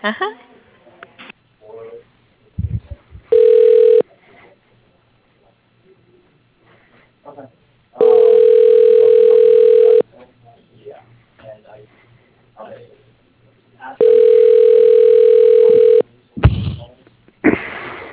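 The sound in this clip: Telephone line tones while a call is transferred to voicemail: three long, steady, mid-pitched tones, each lasting a couple of seconds, separated by longer gaps holding faint voice and line sounds.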